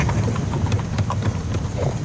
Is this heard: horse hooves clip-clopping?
yes